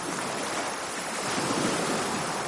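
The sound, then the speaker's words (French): Sea waves on the Coral Sea coast near Brisbane, Australia, a steady, loud rushing wash of surf mixed with wind noise, with no distinct breaks and no voices. “Tu vois l'eau là-bas, là ? C'est la mer de Corail.”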